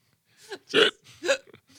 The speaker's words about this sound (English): Now I got the hiccups.